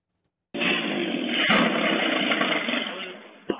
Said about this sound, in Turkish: Adıyaman'da kontrolden çıkan bir motosiklet park halindeki otomobile çarptı. Çarpma anı güvenlik kameralarına saniye saniye yansıdı.